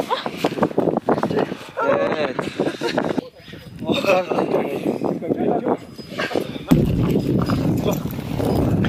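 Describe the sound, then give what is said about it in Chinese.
Horses plod through muddy high-altitude alpine wetland, hooves giving soft irregular clopping steps under nearly continuous voices talking. “湿地深处就是长江南源，此处泥泞不堪，队员需要骑马前往。”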